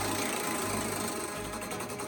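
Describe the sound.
Prize wheel spinning with a quiet, continuous mechanical whir and rattle, and rapid, regular ticking that becomes more distinct near the end.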